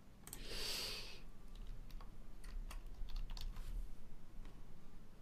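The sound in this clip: Typing on a computer keyboard: a steady run of many irregular, light key clicks, with no voices.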